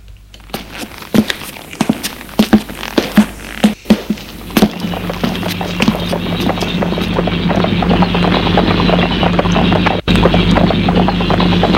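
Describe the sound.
Hooves clip-clop as a horse-drawn cab heads to the railway station. Crisp, evenly spaced knocks come first, then blur into a denser, continuous rattling that slowly grows louder.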